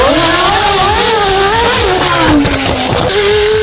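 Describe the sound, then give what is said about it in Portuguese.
Loud racing-car engine at full throttle, a continuous high-pitched whine that wavers, dips lower in pitch briefly and then jumps back up, staying strong and sustained throughout. “100% com o pé cravado no acelerador, o bichão lá embaixo.”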